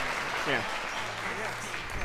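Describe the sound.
Audience applause in a programming lecture hall, rewarding a student, forms a steady wash of clapping for about two seconds, with a faint voice briefly audible over it.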